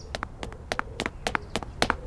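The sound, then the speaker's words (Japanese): Fast footsteps of a girl running at full speed during a film take, a quick steady run of many sharp double-tapped strides at a regular pace, fairly loud and without talk. “何全力で走ってるのよ。”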